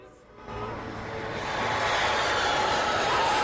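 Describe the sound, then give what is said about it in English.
An aircraft touching down in England sends out a broad engine roar that swells over the first moments and then holds at a loud, steady rumble. “Then an aircraft touches down in England.”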